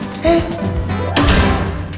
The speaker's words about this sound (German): Jetzt ist die Tür zu. Und der Schlüssel steckt noch drinnen.